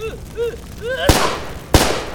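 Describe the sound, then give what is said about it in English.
Two loud gunshots from a pistol crack out in quick succession, each sharp blast trailing off into a short decay. “Finley put a bullet through each of Gregor's eyes.”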